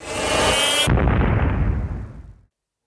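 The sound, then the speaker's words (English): A bomb explodes in Doctor Who: Earthshock, a loud hissing roar that abruptly drops into a deep rumbling blast, decaying steadily before cutting to silence. “Explode the bomb.”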